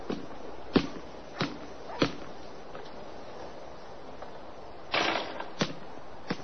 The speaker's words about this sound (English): Annie stands in the driveway and shoots baskets.